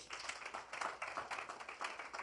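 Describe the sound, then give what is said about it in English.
A crowd clapping for the Lord Jesus at a religious gathering: a faint, steady patter of many hands with small irregular surges in loudness, continuing throughout. “Clap for the Lord Jesus.”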